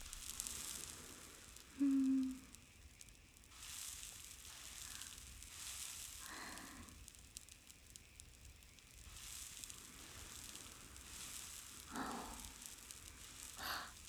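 Fish sizzling as it grills over an open fire: a faint, steady hiss with scattered soft crackles running throughout, no voices.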